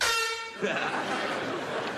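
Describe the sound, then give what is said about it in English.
A single short, loud air horn blast from a handheld horn used at school football games, a bright tonal honk lasting about half a second before giving way to noisy chatter. “Check out my new cheese hat, man. My air horn. I got it for the football games at school.”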